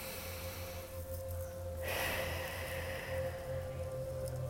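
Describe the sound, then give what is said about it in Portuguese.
A deep breath drawn in during a guided meditation: one soft, airy inhalation swells near the middle, faint against a steady low drone and a held tone. “Então, respira profundamente.”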